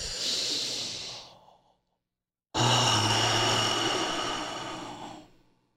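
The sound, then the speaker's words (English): Two deep, drawn-out breaths are taken during a seated breathing exercise with feet on the ground. Each is loud and airy, and they are separated by a short silence, with the second breath longer and stronger than the first. “But having your feet on the ground, inhale as big as possible.”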